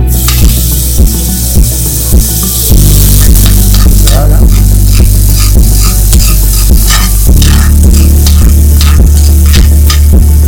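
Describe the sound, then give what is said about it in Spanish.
Butter made with red onion, parsley, rosemary and red wine sizzles loudly and steadily on the heat at an asado. A rhythmic ticking of stirring or scraping runs through the constant frying hiss. “La mantequilla que tenemos preparada, mantequilla a base de cebolla morada, algo de perejil, romero y vino tinto. Lo vamos a echar aquí.”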